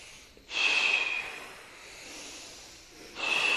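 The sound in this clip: A forceful blowing exhale, like blowing out a candle, during a kriya meditation breathing exercise, followed by a softer, longer drawn-in breath, then the start of another strong blowing exhale.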